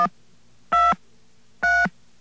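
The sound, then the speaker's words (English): Telephone keypad dialing tones beep as digits are entered after a second dial tone. Three short, evenly spaced two-pitch beeps sound alone, the first cut off at the start, with quiet line hum between them. “Let's dial 123.”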